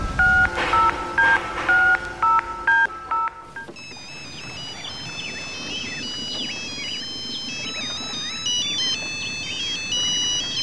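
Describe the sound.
A telephone is dialled for a call: a quick run of keypad tones beeps in a steady, evenly spaced series for a few seconds, then gives way to sustained high electronic tones that carry on to the end.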